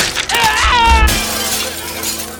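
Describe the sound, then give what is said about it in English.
Glass shattering as a man crashes through a train window: one loud breaking crash early on, then ringing fragments of glass that slowly fade away. “sending him crashing through the window by his seat, half in and half out.”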